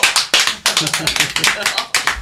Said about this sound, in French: On applaudit les opossums tout de même.